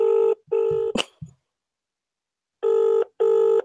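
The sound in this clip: A telephone rings late at night in two double bursts of a buzzy, harmonic tone, with a sharp click after the first pair and a long silent gap before the second.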